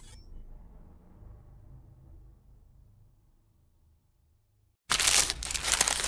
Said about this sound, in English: For all you foodies out there, I'm unwrapping a McDonald's steak, egg, and cheese bagel.